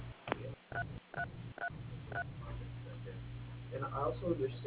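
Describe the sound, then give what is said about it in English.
Touch-tone keypad beeps entering letters into an automated phone directory: several short, evenly spaced two-tone presses, followed by faint talk. “Enter the first three letters of the first or last name of the person you wish to reach.”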